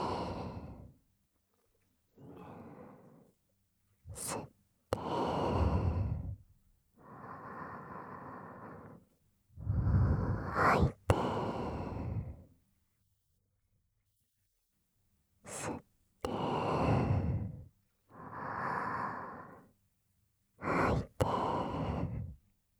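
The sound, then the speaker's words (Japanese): Slow, deep breathing in and out during a guided relaxation: several long, airy inhales and sighing exhales separated by quiet pauses, with a few sharp clicks. “ゆっくりと息を吸って、吐いて、”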